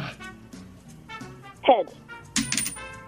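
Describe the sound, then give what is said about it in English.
A coin flipped for a heads-or-tails toss lands with a brief, bright metallic ring, followed by a second short clatter, heard under talking voices. “All right, let's go to the coin flip. Yes. Heads or tails,”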